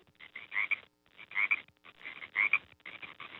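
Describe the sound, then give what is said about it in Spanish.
A frog croaks in four faint, rhythmic bursts of raspy, chirping calls, with short quiet pauses between them. “es que me estaba entrando también el saludito de la rana”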